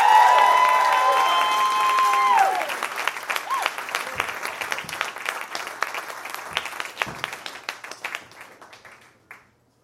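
An audience applauds and cheers to welcome a guest. The clapping is loud and dense at first, then thins into scattered claps that die away to silence.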